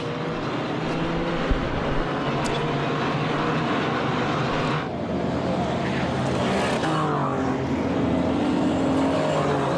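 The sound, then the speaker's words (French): Race cars run on the Le Mans circuit in a lively race start, producing a dense, unbroken wash of engine roar that stays loud and steady throughout. “Début de course extrêmement animé ici au Mans pour le retour Le Mans.”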